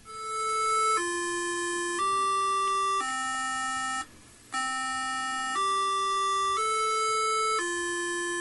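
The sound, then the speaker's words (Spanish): A tsunami warning alarm sounds as loud electronic tones that step between pitches about once per second, with a brief pause partway through before the sequence resumes. “en el caso de que se genere el tsunami, entonces se da la advertencia de alarma, es decir, iniciar los procesos de evacuación. Este sonido es el de advertencia, es así como suena el mensaje.”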